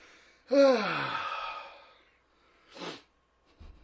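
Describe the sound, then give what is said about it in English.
Heavy breathing from someone out of breath and out of shape: one long, voiced, groaning exhale, then a short, noisy breath after a pause, ending with a faint low thump. “I'm out of breath because I'm so out of shape.”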